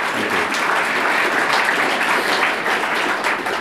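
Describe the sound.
Steady, dense applause from an audience welcoming a guest speaker, an even wash of many hands clapping that holds throughout with no voices standing out.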